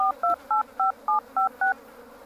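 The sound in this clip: A telephone number dialed on a touch-tone phone, seven short, evenly spaced two-pitch beeps in a steady rhythm, clear and alone with no talking.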